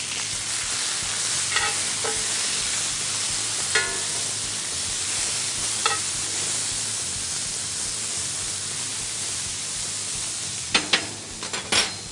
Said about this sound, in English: We got some finely chopped garlic. And now stir.